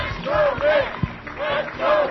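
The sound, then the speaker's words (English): Mitt Romney supporters cheer at Michigan's Republican primary, a crowd shouting in a rhythmic, repeated chant-like pattern. “Mitt Romney supporters cheered their man to the finish line in Michigan's Republican primary.”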